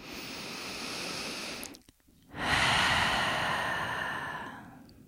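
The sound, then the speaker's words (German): Slow breathing during a relaxation exercise: one long inhale through the nose, a brief pause, then a fuller, louder exhale through the open mouth. “atme ein durch die Nase, aus durch den geöffneten Mund”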